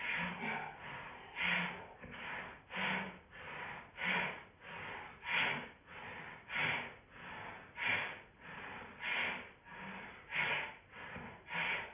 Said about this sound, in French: Et on met en place un souffle de Bhastrika.